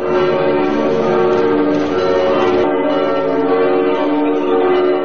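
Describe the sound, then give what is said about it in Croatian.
Church bells ring to welcome bishops as they cross from the patriarchate to the cathedral opposite. Overlapping bells form a loud, continuous, shimmering peal with dense ringing overtones that holds steady throughout, and no voices are heard. “episkopi tradicionalno dočekani zvonima prešli iz patrijaršije preko puta u sabornu crkvu”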